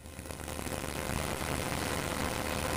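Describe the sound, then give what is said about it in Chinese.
A combine harvester at full power in a corn field near Datong, Shanxi, gives a dense, steady mechanical roar that swells in the first half-second and then holds constant. “收割机正开足马力作业，转运车辆紧随其后，将刚收获的玉米及时运往收储点。”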